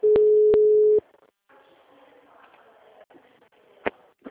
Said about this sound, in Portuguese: A ligação caiu ou você desligou?